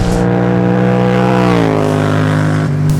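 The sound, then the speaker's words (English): Engine drone from a KTM Duke 790 motorcycle being ridden, a loud, steady, harmonic hum that dips slightly in pitch partway through and then holds level. “The Duke 790 is doing a fantastic job.”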